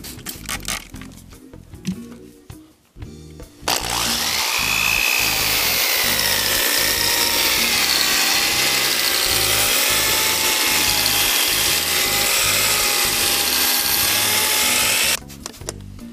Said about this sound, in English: wet sand away. You wanna kind of do this until you're making kind of a slurry on the lens.